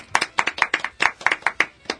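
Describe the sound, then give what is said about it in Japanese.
Sharp hand claps in a quick, slightly uneven rhythm, many distinct strikes packed into two seconds, loud and alone with no talk. “はい、拍手、イエイ”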